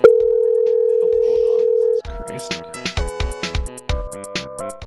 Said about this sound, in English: Call rejected. A call rejected?